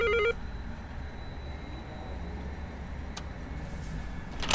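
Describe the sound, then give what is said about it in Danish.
A short electronic doorbell buzz sounds once at an apartment in Frederiksberg, Copenhagen. The loud harmonic ring is followed by a quiet background hum and a couple of faint clicks. “Jeg prøver at ringe på her, hvor jeg kan se, hun bor.”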